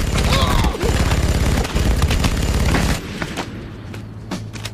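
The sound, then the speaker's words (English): Loud machine-gun fire tears out in dense, rapid, continuous bursts for about three seconds, then drops to a quieter rumble. “He lifts a machine gun and fires on the three soldiers.”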